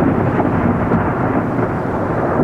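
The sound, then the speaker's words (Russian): Loud, rolling thunder from a thunderstorm, following a flash of lightning: a dense, continuous low rumble that stays steady for the whole stretch, with no break or quiet gap. “Вдруг с сухим треском сверкнула молния, и последовал такой раскат грома, что, казалось, само небо должно было расколоться пополам.”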